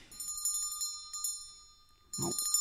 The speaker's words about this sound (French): Ça a sonné.